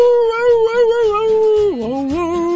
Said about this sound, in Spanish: Y en la rola que el señor está interpretando, el perrito empieza a hacerle así como si realmente estuviera cantando, así le hacía.